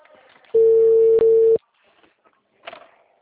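A telephone ringback tone plays while a call is placed: one steady, loud buzzing tone lasting about a second, broken by a brief gap midway. Faint background noise and a short click follow.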